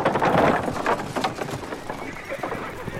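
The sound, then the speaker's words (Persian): Galloping hooves and a loud whinny from a horse as a rider approaches a battlefield shield wall. Dense, busy hoofbeats run steadily with voices mixed in. “یه سوار داره نزدیک میشه.”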